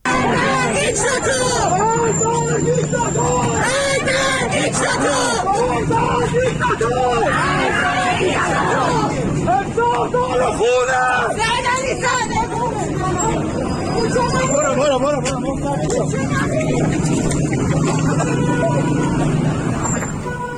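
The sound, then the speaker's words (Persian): Loud crowd hubbub from street clashes and chases near Tohid Square in Tehran: continuous shouting and chattering voices mixed with traffic noise. “یکی از صدای که از این موارد درگیری و زد و خورد و تعقیب و گریز رو میتونیم بشنویم که گفته میشه برای اطراف میدان توحید تهران هست.”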